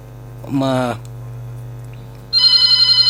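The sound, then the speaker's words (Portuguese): A telephone call-waiting tone cuts into a phone-in caller's line over a steady low electrical hum: first a short tonal burst, then a sustained, rapidly pulsing high tone that runs to the end. “Quando o ouvinte liga, uma outra chamada que está a entrar, então isso acaba criando uma interferência e acabamos ouvindo um tum-tum, tipo alguém está a ligar.”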